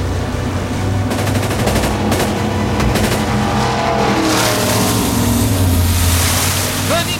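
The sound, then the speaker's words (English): A rapid volley of gunshots fired from a speedboat racing through a canal toward a river. Sharp cracks come in a quick series and are partly buried under the loud, roaring engine and rushing water. “As the Chechen emerges from the canal, Nikolai fires a volley of shots.”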